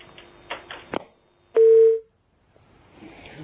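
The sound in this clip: A phone line connects on an incoming call with one loud, steady mid-pitched tone lasting about half a second, preceded by a few faint clicks and followed by quiet line noise.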